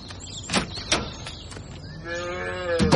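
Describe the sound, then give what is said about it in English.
A calf moos on a farm with one drawn-out, low, steady call near the end, preceded by a couple of sharp knocks in an otherwise quiet moment. “Grab a beast. What? Grab a calf there and wrestle him down.”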